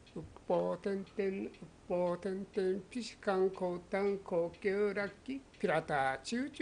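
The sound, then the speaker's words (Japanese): A voice imitates a bird singing from trees on a clifftop, chanting rhythmic repeated syllables in a steady, sing-song pattern with clear pitch swoops on several notes. “さえずっている鳥の声だろうと思うと”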